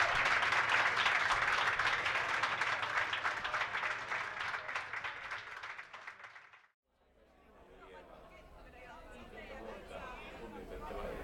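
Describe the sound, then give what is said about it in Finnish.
Audience applause for a performer, a loud, dense wash of clapping that gradually fades and cuts out after several seconds, followed by quieter crowd chatter. “annetaanpa vielä kerran oikein raikuvat aplodit tälle meidän edelliselle oikein mahtavalle esiintyjälle.”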